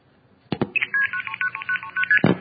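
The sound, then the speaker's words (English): Long-distance telephone call dialing tones: a couple of clicks, then a rapid run of many short beeps stepping between different pitches, ending in another click. “if you placed a call, a long-distance call, you'd hear something like this.”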